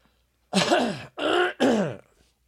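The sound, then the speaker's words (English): A person clears their throat in three rough, gravelly bursts in quick succession, loud against silence and followed by a faint tail. “excuse me, clear my throat here”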